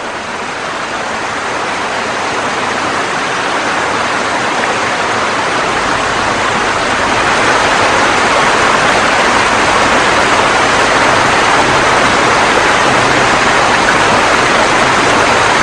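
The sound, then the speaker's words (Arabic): A raging torrent of floodwater in a river in northern Peru, swollen by El Niño, makes a loud, dense, unbroken roar of rushing water. It builds slightly and holds steady throughout. “حول إل نينيو الأنهر التي كانت هادئة إلى سيل مسعور”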